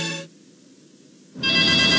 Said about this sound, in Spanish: ¡Contesta tu citófono, porque estoy ocupada!